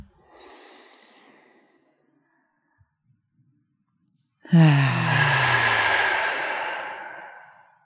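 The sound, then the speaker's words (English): A group breathes together: a faint, airy inhale, a short quiet pause, then a loud, long, breathy exhale that lasts several seconds before fading. “So how about we take a big inhale and exhale and we'll say aloha.”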